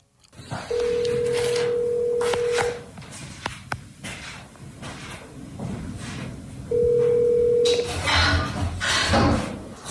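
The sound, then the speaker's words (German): A telephone is used to call a friend: a steady dial tone sounds, a few short clicks and beeps follow as the number is entered, then a second stretch of tone. “Mein bester Freund ist der Drummer und ich wollte ihn mal kurz anrufen, mal gucken, ob er Zeit hat.”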